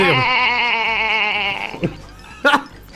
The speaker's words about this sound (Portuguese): Aí, ó, é um bezerro, ó, cara.